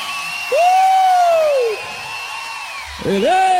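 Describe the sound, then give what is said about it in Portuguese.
Cheering at a gospel event while the audience praises the Lord: a loud, long sustained whoop rises over crowd noise, dips, then a second whoop breaks in near the end. “pode aplaudir o Senhor.”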